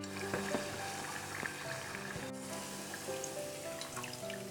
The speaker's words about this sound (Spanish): empiezo a freír y luego hago otra tanda. Pongo el primero. Simplemente que esté un poquito dorado, no hay que quemarlos demasiado.